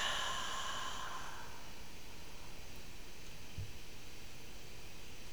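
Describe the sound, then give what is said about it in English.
A long exhale out through the mouth during a guided meditation breathing exercise, a soft breathy rush that fades over about a second and a half into a faint steady hiss. “Hold the breath. Expand the stomach, heart, and lungs. Dropping the shoulders. Dropping the cheekbones. Softening the temples. And then exhale out through the mouth.”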